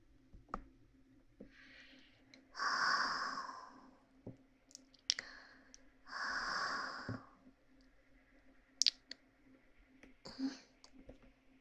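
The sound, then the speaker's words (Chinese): Breathing close to the listener's ear: two long, airy exhalations, soft and intimate, with small mouth clicks and quiet ticks between them. “离你太近了，呼吸都扑到你的耳朵上了”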